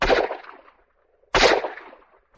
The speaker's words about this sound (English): Two revolver shots told me his rifle was out of commission also, and that he was hiding near the abandoned Lucky Johnson mine shaft.